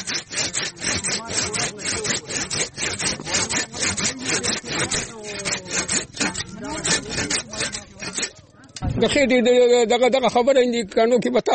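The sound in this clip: Branches of a wild tree being cut with a saw: many quick, rhythmic rasping strokes, loud and steady, with a brief pause before a voice comes in near the end.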